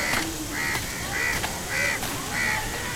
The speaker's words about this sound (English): Circling around like omens in the sky. The birds? Yes, the birds.